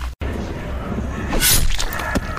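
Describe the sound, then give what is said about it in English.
Ginsu knife blade chopping through a giant head of cabbage: one sharp, crunching cut in the middle, heard over a steady noisy background. “The blade is so sharp that it will cut right through this giant head of cabbage. Watch!”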